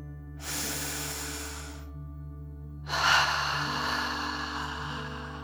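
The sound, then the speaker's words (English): One slow, deep breath: a soft, airy inhale, a short pause, then a longer, slightly stronger exhale, over a steady low drone. “You feel safe and strong as you take a deep dragon breath in and out.”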